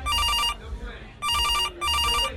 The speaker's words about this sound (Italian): Sto asciugando le mani con una salvietta di carta, quando all'improvviso il mio cellulare squilla.